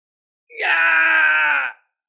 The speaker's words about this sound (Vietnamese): Trong chiến trường phát ra một tiếng hét thảm